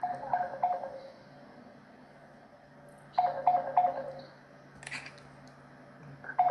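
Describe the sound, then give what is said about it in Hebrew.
A phone rings with an incoming call: a faint electronic ringtone of short chirpy tones that repeats in cycles, with quiet gaps between. “את שומעת גם אצלך את הצלצול?”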